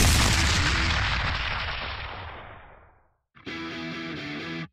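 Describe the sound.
A single heavy gunshot effect from a tabletop role-playing game set in Arizona. It booms loudly and rolls off in a long fading tail. After a short silence, a steady buzzing tone follows.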